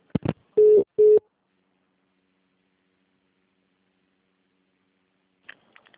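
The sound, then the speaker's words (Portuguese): Telephone busy signal on a phone line: two short, steady low beeps separated by a brief gap, preceded by a few clicks, then silence and faint clicks near the end. “Tentar de novo, é porque a linha tá dando ocupado.”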